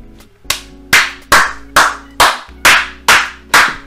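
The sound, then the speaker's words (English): Eight loud, sharp hand claps in a slow, steady rhythm, each a crisp smack with a short decaying tail and brief gaps between them. “she deserves a fucking good clap.”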